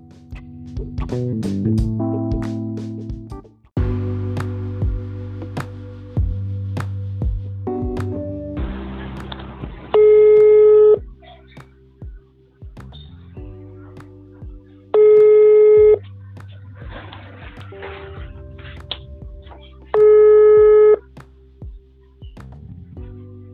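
A telephone ringing tone for an outgoing call sounds three times in loud, evenly spaced bursts about five seconds apart, over a steady tonal backing.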